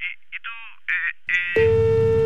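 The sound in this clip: A telephone line after a call is hung up: a few short electronic tones, then a steady, unbroken busy tone that holds loudly to the end.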